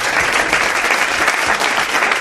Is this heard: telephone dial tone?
no